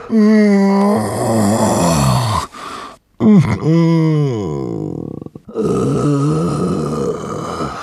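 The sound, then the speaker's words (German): Long, drawn-out, pitiful groaning moans, loud and alone, voiced in three extended stretches separated by two short breaks, with audible bends in pitch. “als er ein merkwürdiges Geräusch vernahm. Es klang wie ein Stöhnen, ein Ächzen, langgezogen und auch ein bisschen mitleiderregend.”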